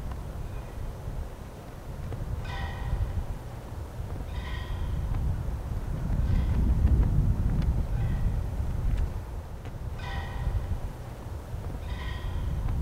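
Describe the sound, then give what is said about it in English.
A flag flaps in the wind outdoors on a field, steady low wind rumble broken by a few brief, papery flutter bursts at irregular intervals. “That's the sound of the flag blowing in the background.”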